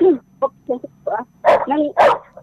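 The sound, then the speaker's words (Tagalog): A dog barks close by in a quick series of sharp, yelping barks and higher yips. Some calls are short and others more drawn out, with no other sound over them. “ang naririnig ko po yung tahol ng aso. O nga po, malapit po ako sa aso.”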